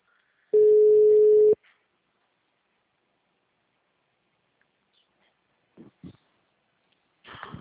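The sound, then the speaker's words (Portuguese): A WhatsApp call rings with a single steady, mid-pitched tone lasting about a second, then long silence, followed near the end by a few faint, brief sounds. “Chamei o Hugo no WhatsApp.”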